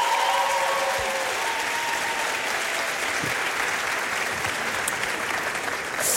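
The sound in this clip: An audience at an awards ceremony applauds, a dense, steady wash of clapping that stays loud and unbroken for the whole clip.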